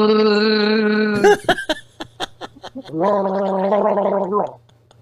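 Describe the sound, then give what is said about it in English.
Someone gargles Diet Mountain Dew soda: a steady voiced gargling tone, then sputtering bubbly bursts, then another wavering gargle that cuts off into quiet. “You can't gargle soda. You can't gargle soda. No. We're good. Diet Mountain Dew for the win.”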